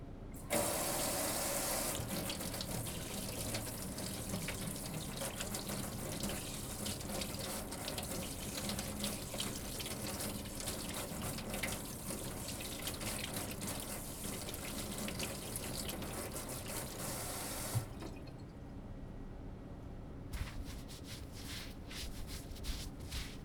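Tap water runs steadily into a sink while oily hands are washed, a loud even rush lasting about eighteen seconds before it cuts off, followed by a few faint splashes and drips.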